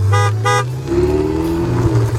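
Two short, bright toots from a Ferrari's car horn, followed by the steady low rumble of its running engine.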